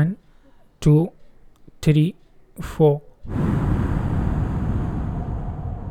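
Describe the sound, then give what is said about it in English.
A deep breath drawn in through the nose during a meditation breathing exercise: three short voiced sounds come first, then a long, steady breathy rush lasting over two seconds. “it for 4 seconds and then release it from your mouth. I'll show you the demo. First, take a deep breath from your nose. Hold it for 4 seconds.”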